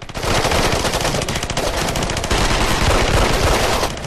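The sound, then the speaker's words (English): Heavy automatic gunfire rattles through a battle between Russian and American soldiers, a dense, unbroken stream of rapid shots, loud and harsh for about four seconds with no voices. “Russians fall under the precision fire of Doyle and his men. Another wave of Americans pop up from behind a wall and pick off more Russians.”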